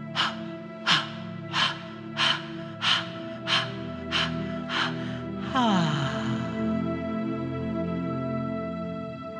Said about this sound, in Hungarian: And let's hear the ah at the end. Breathe in deep.